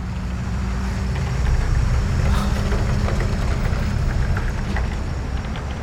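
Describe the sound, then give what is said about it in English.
Heavy engine rumble of a shield bug, a heavy-duty armored vehicle heading toward Main Street in a drama sound effect. It is a loud, steady, low mechanical drone that swells slightly through the middle and holds with no break. “That was a shield bug. They're heavy-duty armored vehicles from Augur, usually packed with alphas. It's heading towards Main Street.”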